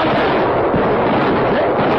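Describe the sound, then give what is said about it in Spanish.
Rifle gunshots fired by soldiers at a fleeing horseman form a dense, continuous roar of overlapping blasts, loud and steady throughout with no clear gaps between shots. “Un tiro más abajo. Apunten arribita de la enanca del caballo. ¡Ya! ¡Fuego!”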